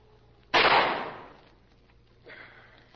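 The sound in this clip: A gunshot rings out in a radio drama adaptation of a crime thriller: one sharp, loud crack with a broad, hissing decay that fades over about a second, then a softer noise follows.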